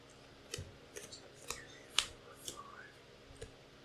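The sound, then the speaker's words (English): Game cards from the board game Clowns for Congress being discarded and new ones drawn: faint, sharp snaps and clicks, several separate taps spaced unevenly, with one brighter snap near the middle, with no talk. “I'm discarding all three legislations I had in my hand and drawing new cards.”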